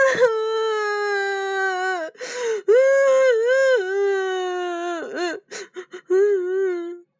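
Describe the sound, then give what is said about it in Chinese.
A young boy cries loudly after hurting his foot by kicking a table. Long, wavering wails run for several seconds and break into short, gasping sobs near the end. “杰瑞哭了起来，看来是把脚踢疼了。妈妈伸开双臂，杰瑞跑了过去，在妈妈的怀抱里哭啊哭啊”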